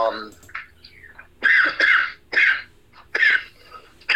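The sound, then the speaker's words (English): Someone choking on spit coughs several times, harsh, rasping bursts in an uneven rhythm separated by short pauses, with softer throat sounds before them. “Choking on spit there for a minute.”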